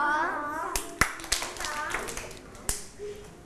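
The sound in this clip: Hand claps during a waist-twisting exercise: a few sharp, separate claps spaced irregularly, with talk running alongside and under them.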